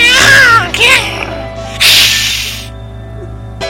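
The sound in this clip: A voice imitates cats fighting in an echoing garage: wavering, high yowls and moans come first, then a long breathy hiss, with a quieter tail.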